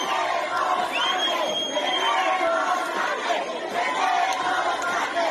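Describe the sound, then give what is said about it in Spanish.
Venezuelan migrants hold a noisy protest in Bogotá while the city is under mandatory lockdown. Many voices shout and chatter together in a steady, dense din throughout. “Lo que acaban de escuchar es una manifestación de migrantes venezolanos en Bogotá, una ciudad en aislamiento obligatorio desde hace 7 días.”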